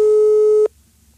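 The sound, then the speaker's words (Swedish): A telephone line tone while a call is being placed: one clean, steady electronic beep held for about two-thirds of a second, then cut off sharply to near silence. “nu ringer vi upp Rickard Sjöberg och blåser honom”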